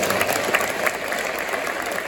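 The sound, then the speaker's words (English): Applause from a church audience, a dense steady patter of many hands clapping, loud and even throughout without a clear rise or fade. “Thanks, let's give them all a round of applause.”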